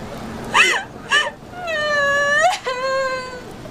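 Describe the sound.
A person crying while being questioned about injuries: two short sobbing gasps, then a long, tremulous high wail that breaks off briefly and resumes. It is loud and wordless.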